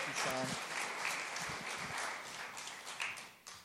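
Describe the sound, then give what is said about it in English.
Applause at a church gathering welcomes guests coming up on stage, soft and steady clapping that continues for a few seconds and tapers off at the end. “Give them a big hand as they come on up and share what God is doing.”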